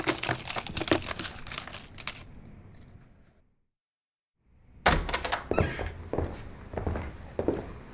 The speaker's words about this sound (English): Oh no! The cards are falling!